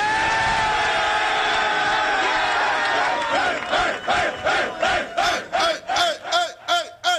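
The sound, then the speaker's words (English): A football team cheering for its head coach in the locker room after a game: a sustained, loud roar of many voices that breaks into many rhythmic, repeated chanted shouts, growing sharper toward the end. “Does that sound like a locker room that doesn't love their head coach?”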